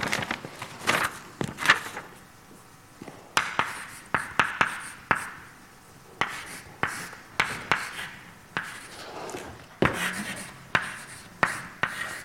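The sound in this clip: Handwriting as a mathematical expansion is written out: many scratchy strokes in short bursts, separated by brief pauses, each with a sharp onset and a fading tail.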